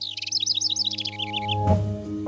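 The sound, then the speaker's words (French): A small green kinglet gives a rapid run of high, bright chirps for about a second and a half, then falls silent. “Aujourd'hui encore, on appelle ce petit oiseau vert le roitelet.”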